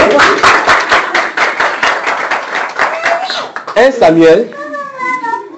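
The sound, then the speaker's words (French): Applause from a church audience, brisk overlapping claps through the first few seconds, then voices calling out and singing over the fading clapping. “Amen. Amen. Applaudissons pour la soeur.”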